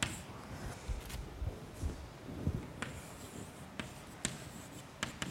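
Handwriting with a pen: quiet, continuous scratchy strokes broken by a few sharper taps, with no speech.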